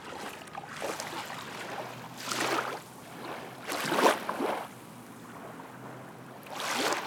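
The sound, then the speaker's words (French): Small waves lap on a gravel beach in a few soft, broad washes that swell and fade at an uneven pace. The sound stays gentle and low, with no voices. “Ce que j'aime, c'est le bruit des petites vagues.”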